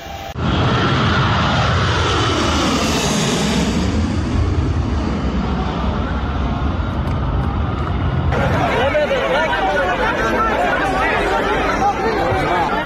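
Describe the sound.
A loud, steady roar of an airplane engine near the wing at a crowded airport, with the chatter and babble of many people mixed in. The texture of the noise shifts partway through.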